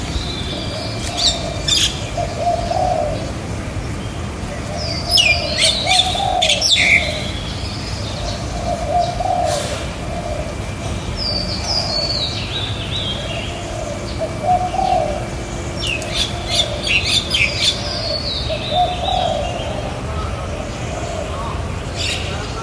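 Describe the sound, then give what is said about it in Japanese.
Various birds call in a park in Chiang Mai: repeated low dove coos run beneath many bright chirps and tweets, over a steady background of noise. “YMCA ホテルのね、前の公園にいてるんですけど、いろんな声のね、鳥が鳴いてるので、ちょっと公園に出てきました。ちょっと声聞いてもらおうかな。”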